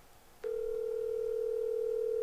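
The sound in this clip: A telephone tone heard through the handset while a call goes unanswered before voicemail: a steady, single-pitched electronic tone that starts abruptly and holds evenly after a brief quiet start.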